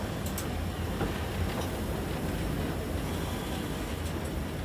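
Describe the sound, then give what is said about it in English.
A coal-fired steam train running along the line makes a steady, low, even rumble throughout, with a few faint knocks and no voices. “The train passes an SW sign.”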